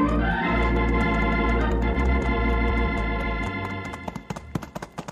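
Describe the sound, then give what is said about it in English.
Horses galloping in a company of riders, a quick clatter of hoofbeats that comes through near the end as a loud, sustained musical score fades out. “The whole company galloped almost the whole way.”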